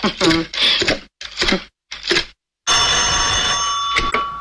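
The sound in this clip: A telephone bell rings in one sustained, bright, continuous burst after a voice speaks a few short phrases.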